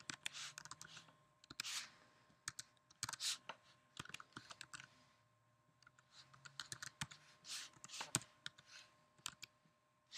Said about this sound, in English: And then you'll type in your personal email. So then I will put in